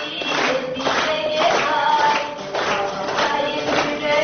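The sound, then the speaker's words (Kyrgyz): A cinema audience claps along to a young woman's song, many hands striking a steady, regular beat about twice a second while a sung melody carries underneath. “Аны залдагы көрүүчүлөр ушинтип кол чаап коштоп турушту.”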